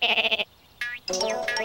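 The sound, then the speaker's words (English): Sheep bleating in a field: a loud wavering bleat with a quick pulsing tremble, then a short higher cry and a longer, sustained bleat, with no talk over them. “No, not the sheep. He's behind the sheep.”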